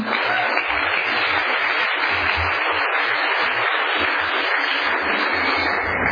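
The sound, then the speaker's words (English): Steady audience clapping at a live show, many hands producing an even, loud wash of applause that continues without a break and with no talking. “that clapping thing is so weird, you guys.”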